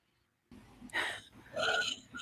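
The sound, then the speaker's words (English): A group breathes in and out deeply together during a guided breathing exercise. Near-silence gives way to airy, breathy swells of inhaling and exhaling, with no talking. “Everybody inhale and exhale.”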